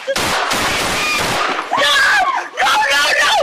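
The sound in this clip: Gunfire from police body camera footage of an officer-involved shooting in Washington, D.C. on Christmas Day: a rapid, loud burst of sharp shots, then shouting voices.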